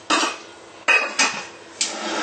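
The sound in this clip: A rice cooker's pot, holding rice and water, is set into the cooker, giving four hard metallic clanks and knocks. A scraping, hissy rustle runs between the impacts, with no talk.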